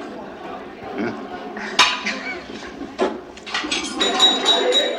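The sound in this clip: Plates and cutlery clink sporadically as a leg of lamb is carved at a meal, with sharp metallic chinks and scraping under people talking.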